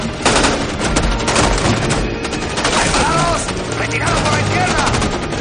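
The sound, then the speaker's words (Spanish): Dense gunfire from a battle scene in the 2003 war film Tears of the Sun, where soldiers fire on advancing rebels: a loud, continuous barrage of rapid shots and bursts with no pauses. “Los rebeldes llegan a raudales, mientras Waters y sus hombres disparan contra ellos.”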